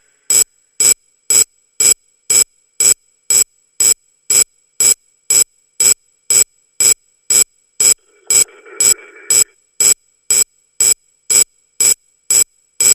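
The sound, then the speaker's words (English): A radio turned up to full volume gives loud, sharp electronic pulses that repeat many times in an even, rapid rhythm. Partway through, a brief burst of rougher noise joins the pulses. “So I need you to turn the radio up after three, and I want to know what happens.”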